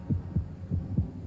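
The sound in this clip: A heart thudding: four low, muffled thumps grouped in two lub-dub pairs at a steady pace, over a faint continuous hum.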